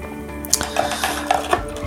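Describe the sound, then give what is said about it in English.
Vitamin C powder fizzes after three teaspoons go into a mixture, giving a steady soft hiss scattered with small crackles and a few sharper taps. “Okay, that's fizzing, that's good.”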